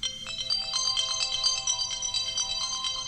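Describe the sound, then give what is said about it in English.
An electronic telephone ringtone sounds for an incoming call-in. A rapid warbling trill of high tones repeats steadily for about three seconds, loud and on its own. “Okay, America, dial in.”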